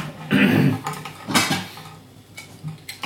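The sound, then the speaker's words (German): Plates and dishes clatter as a second plate is taken in a kitchen, with a few separate bursts of sharp ceramic clinks and scrapes between quieter stretches. The loudest burst comes first. “Ich werde dann mal noch einen zweiten Teller nehmen.”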